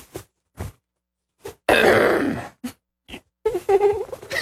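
A big, harsh throat clear rasps for nearly a second, set among a few short grunting bursts before and after it.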